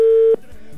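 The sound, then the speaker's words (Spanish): A telephone ringback tone sounds on an outgoing call as a single steady, clear tone that cuts off abruptly, followed by faint low background noise. “Venga, esperamos que nos pueda tomar la llamada. Ya entró, ya está sonando.”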